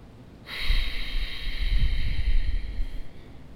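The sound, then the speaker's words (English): A single long ujjayi victory breath is exhaled through a constricted throat with closed lips. The breathy hiss is steady and fairly loud, lasts about three seconds and is heard alone. “you're going to close your lips and you're going to constrict the back of your throat and pretend as if you were fogging up a mirror, but your lips are closed. So it should sound something like this.”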